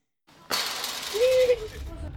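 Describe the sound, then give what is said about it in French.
A dragon smashes a building with fire, heard as a loud, sudden crash of shattering debris that bursts in at once and then trails off into a long, rough rumble of falling rubble. “Le dragon casse un bâtiment avec du feu.”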